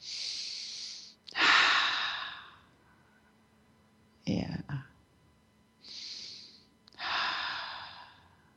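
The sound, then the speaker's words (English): Slow, deep breaths taken during a guided meditation: a few long, airy inhales and exhales, each a soft rushing hiss that swells and fades, with quiet pauses between them and no talking. “All right, everybody take a couple of deep breaths.”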